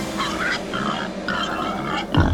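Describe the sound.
Wild boars grunting along a road at night: a few rhythmic, nasal grunts repeating at a steady pace, ending with a low thump.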